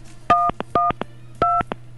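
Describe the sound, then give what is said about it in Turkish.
Telephone keypad tones from a prank caller phoning a call-in line. Three short, bright dual-tone beeps are mixed with quick button clicks over a low, steady hum, and no voices are heard. “Şaka yapan bir başka dinleyicimiz. Düğmelere basıyorlar. Telefon şakası.”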